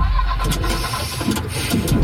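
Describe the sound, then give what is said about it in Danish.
A leased car's engine struggles and falters as the car breaks down in the middle of the Motorring 3 ring road, giving a rough, uneven churning rumble with several irregular surges. “Lad os sige, at din leasingbil bryder sammen midt på Motorring 3.”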